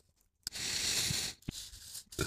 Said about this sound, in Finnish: Okei, okay, mä kirjoitan näin.